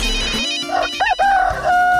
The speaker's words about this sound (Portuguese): É o galo cantando e a hora chegando.